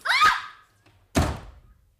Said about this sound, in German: Jetzt sind wir erledigt. Ach. Warum haben Sie bloß geschossen? Sie haben voll getroffen.